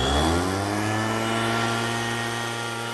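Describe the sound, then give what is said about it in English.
A leaf blower runs with a loud, steady motor drone rich in harmonics, holding an even level and pitch throughout without a break. “The leaf blower is definitely a mood killer. It just goes on and on and on. You have to hear this all day, and you just get more and more angry and mad.”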